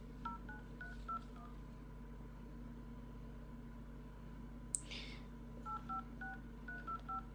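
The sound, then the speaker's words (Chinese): Telephone keypad tones as a number is dialed: quick beeps of differing pitch in two bursts, separated by a pause with one sharp click. “打个电话，这个号码没错吧？”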